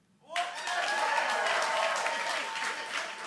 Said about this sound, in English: But if you did have relatives, you probably would have clapped like,